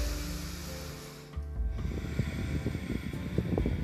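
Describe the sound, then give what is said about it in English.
A deep breath in and out during a breathing exercise. After a short steady tone, a rough, airy rush begins and carries on to the end, loud and snore-like. “by taking a small moment for us to just breathe”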